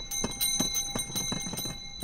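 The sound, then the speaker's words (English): Ice cream cart bells ring out on Chicago sidewalks, parks and beaches: a rapid, bright jangle of many repeated metallic strikes with ringing overtones, fairly quiet and without voices. “it's the season when these ice cream cart bells ring out in Chicago sidewalks, parks, and beaches”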